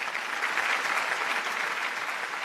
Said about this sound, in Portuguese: Os aplausos são tantos que o compositor volta ao palco para agradecer.